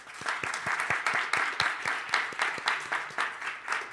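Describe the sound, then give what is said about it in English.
Applause from a church audience welcoming visitors during a service: quiet, quick, rhythmic clapping from many hands that keeps an even level. “Can we give them a hand?”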